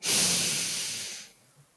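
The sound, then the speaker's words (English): A deep breath taken during a guided breathing exercise: one long, airy, hissing rush of air lasts just over a second and then drops away into near silence. “we're gonna take a deep breath at 1. Exhale at 2. Inhale at 3.”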